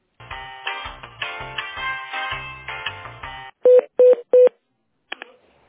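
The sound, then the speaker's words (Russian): Telephone connection tones during an office call transfer: several seconds of busy, tonal sound with low pulses, then three short, evenly spaced loud beeps and one briefer, fainter beep. “Да, Александр Николаевич на месте, сейчас вас соединю с ним.”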